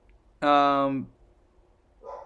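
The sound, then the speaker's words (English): A dog gives a single drawn-out, tonal bark lasting about half a second that drops slightly in pitch at its end, followed by a faint, brief sound. “There's a dog.”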